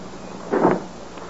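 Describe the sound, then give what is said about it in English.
A door is closed with one short, muffled thump in an otherwise quiet moment. “Oh, please close the door.”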